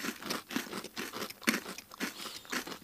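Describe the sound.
Crisp crunching as someone bites into and chews a baked cookie from a small shop, a rapid series of short, dry cracks and crumbles heard alone at moderate volume.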